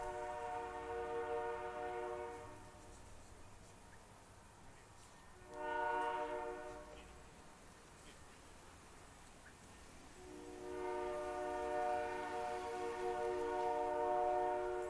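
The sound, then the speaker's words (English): Distant train whistle sounding a level-crossing signal: a long blast, a brief short one, then another long blast, a steady chord-like tone that is faint over a low, continuous rumble. “Eventually, in the far distance, we hear the L-14 whistle, the signal for a level crossing, long, long, short, long.”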